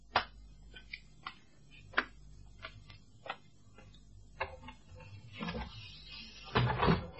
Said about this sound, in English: In fact, I shall open the window for you.